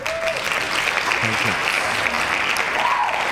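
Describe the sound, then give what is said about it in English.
Hand claps from many people form a dense, continuous burst of applause lasting about three seconds, with faint tonal sounds mixed underneath. “Hand claps. Double hand claps. triple.”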